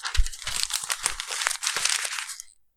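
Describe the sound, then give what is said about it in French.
Paper being crumpled by hand gives a dense, continuous crinkling and crackling that lasts about two and a half seconds and then stops. “Tu veux que je fasse le bruit de papier? Ah ouais, grave. Attends, je peux le faire si tu veux.”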